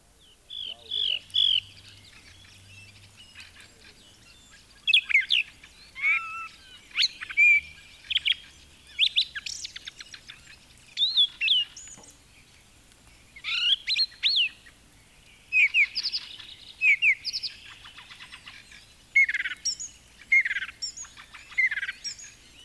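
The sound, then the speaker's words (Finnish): Song thrush singing: bright, varied whistled and chirping phrases delivered in repeated bursts with short pauses between them, many phrases in a row, fairly loud and alone. “Laulu rastas.”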